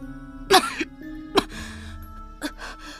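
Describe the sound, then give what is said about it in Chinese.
A person coughs violently, three harsh, explosive bursts spaced unevenly over a steady low tonal background, with no speech. “而后剧烈地咳嗽起来”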